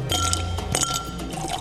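Aguardiente pours into a glass in a steady, gurgling stream of liquid, broken by a few light glassy clinks. The sound is fairly soft and continuous, with no voices.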